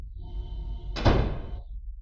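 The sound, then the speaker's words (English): A door closing in a room: one heavy thud near the middle, then a short rumbling decay over a steady low hum. “Astonished, I watched the moment the door closed.”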